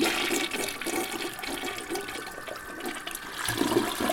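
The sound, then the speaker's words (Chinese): A toilet flushes with a steady, loud rush of swirling water that runs the full length without pause. “他冲了马桶，艾咪消失在水管里哦，”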